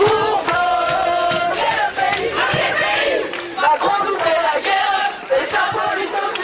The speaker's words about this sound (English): The sound of one protest in Lille. There, students gathered behind makeshift barricades in a standoff with police.